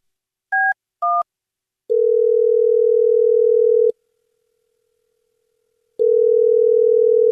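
A landline phone's two short keypad tones sound in quick succession, then a steady low dial tone holds for about two seconds, falls silent, and resumes loud and unbroken.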